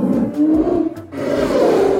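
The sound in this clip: A bear roars in a deep, rough growl that is held for about two seconds, dipping briefly in the middle before swelling again, with no voices.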